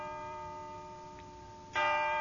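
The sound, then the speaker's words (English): Church bells clang together in a cacophony, a bed of sustained, overlapping ringing tones that is suddenly joined by a louder fresh strike near the end. “I recall a cacophony of church bells.”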